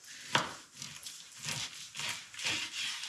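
A sharp kitchen knife with a thin handle cuts through food in a few crisp, scraping strokes, each a brief crunchy burst over faint background rustle.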